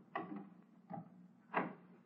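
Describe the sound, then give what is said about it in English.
A door is opened in a quiet room. Three muffled wooden clunks sound at uneven intervals, the last one slightly stronger, all soft against a near-silent background. “And let me get this door open.”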